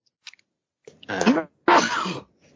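A single sneeze: a brief voiced intake sharpening into a noisy, breathy burst, fairly loud, with a few faint clicks before it and quiet afterward.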